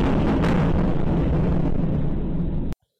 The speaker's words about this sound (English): So that was a missile hitting the side of a building, creating a big hole in the building.